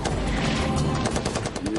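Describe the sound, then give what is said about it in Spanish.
Machine gun firing nonstop in a World War II battle in the Ardennes, the barrel overheating. The loud, dense rattle of rapid shots runs the whole time without a break in the bursts. “El sargento Slade no tenía otra opción que seguir disparando la ametralladora, aunque el cañón se estaba poniendo al rojo vivo.”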